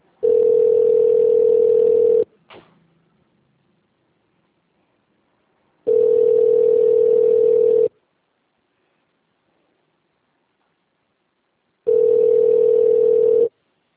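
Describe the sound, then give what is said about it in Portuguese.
A telephone line tone during a call transfer sounds as steady mid-pitched beeps about two seconds long, three in all, separated by long silent gaps, with a single soft click just after the first. “Tá, eu não tenho esse nome na minha lista, mas eu vou transferir lá e quem atender a senhora será.”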